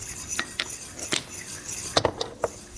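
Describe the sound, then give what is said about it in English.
A utensil stirring a pot while cooking, giving a few scattered light metallic clinks and scrapes against the pot, faint and irregular, with short gaps between them. “the whole time you're doing this, you wanna make sure that you're stirring continuously. You wanna make sure you're stirring continuously.”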